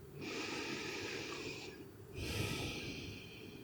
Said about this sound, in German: Dann nimm einen tieferen Atemzug ein und aus.